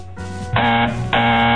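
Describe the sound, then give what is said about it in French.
A quiz game-show buzzer is pressed, giving a loud, sustained electronic buzz with a strong harmonic tone. It jumps up in loudness partway through, with no talk over it. “peut toujours essayer de répondre en appuyant sur le buzzer”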